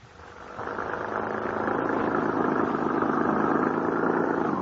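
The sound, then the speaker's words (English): A car engine runs while driving, rising quickly from quiet into a steady, mid-pitched hum that holds without a break. “How much farther do we have to drive into the wilds, young man?”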